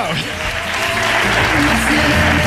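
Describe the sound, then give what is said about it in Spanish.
Applause rolls as a dense, continuous wash of many hands clapping, fairly loud and steady throughout, with a voice faintly underneath. “Un aplauso para Juan Carlos Ortega.”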